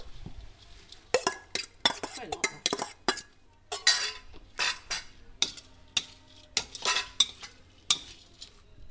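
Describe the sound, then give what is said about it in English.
Stirring fried garlic, dried shrimp and chopped chive in a wok: many quick, irregular metallic scrapes and clinks of a utensil against the pan, fairly loud and uneven in rhythm, with a faint sizzle underneath. “So we are going to mix in the chopped chive.”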